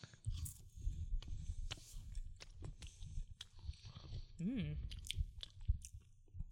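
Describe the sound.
Someone quietly bites into and chews a white chocolate Kit Kat bar. Many small, crisp crunches and moist mouth noises come through, with a brief hummed vocal murmur partway through.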